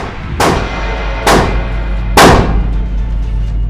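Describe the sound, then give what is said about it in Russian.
Three gunshots are fired in a row at an even pace, each a sharp, loud crack with a short decaying tail, over a constant low rumbling hum. “Еще стреляй. Еще. Еще. Еще. Еще. Стреляй!”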